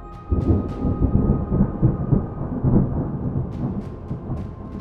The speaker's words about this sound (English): the rain is absolutely just torrential and it is hard to see